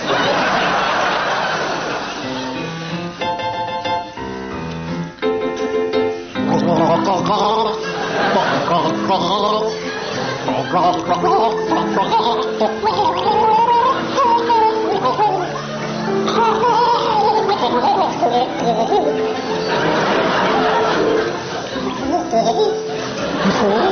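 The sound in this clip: A person gargles a song tune, producing a bubbling, wavering voiced melody that runs almost continuously for the whole clip, with choppier broken bursts near the start.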